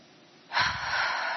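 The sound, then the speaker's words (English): A deep breath drawn in during a guided relaxation breathing exercise: near silence, then a sudden airy rush of inhaled air from midway that holds steady and fairly loud to the end. “Breathe it in and fill your body up.”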